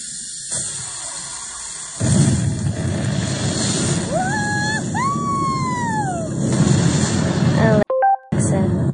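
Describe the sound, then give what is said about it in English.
Toy rocket launch sound effect from a Barbie playset: a noisy rumble starts, then electronic whistling tones sweep up and down over it. The rumble cuts off abruptly and a few short beeps follow. “Power, flap, flap, vent. Great. Rocket is cleared for launch.”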